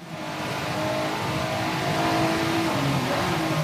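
Race car engine from a sim racing video game during a Twitch race on a wet track: a loud, sustained whining drone whose pitch shifts up and down as the car accelerates and changes gear, with no voices.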